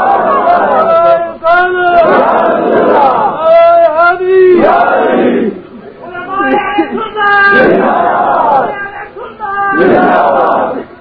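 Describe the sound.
A crowd chants the Takbeer slogan in unison: loud, shouted phrases in a few strong bursts separated by short pauses, with many voices merging into one rough, sustained roar.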